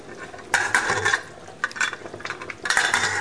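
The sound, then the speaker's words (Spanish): A lid being closed on a cooking pot: a few bursts of metallic clatter and scraping rattles, moderately loud, with quiet gaps between them. “Bueno, falta un poquito. Así. Ya cerramos la olla.”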